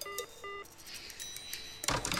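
A payphone receiver is hung up in a phone booth on the Fontanka embankment. Two short electronic beeps sound first, then a loud clattering clunk comes near the end as the handset goes down.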